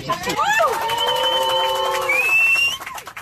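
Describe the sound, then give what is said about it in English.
Passengers on a plane cheer, whoop and whistle, with long sustained whistles rising in pitch over a loud, steady wash of voices. “And cheering and whistling and whooping on the plane.”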